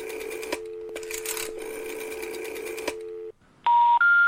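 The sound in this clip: Telephone line tones from a call to an unrecognized number: a steady low tone with a few brief breaks lasts about three seconds. After a short silence come loud, higher electronic beeps that step upward in pitch.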